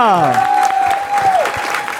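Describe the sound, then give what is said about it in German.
Audience applause at a live show after a text reading: brisk clapping under a single voice that swoops down and then holds a long, cheering note before it drops away. “Und ein Riesenapplaus an Ina.”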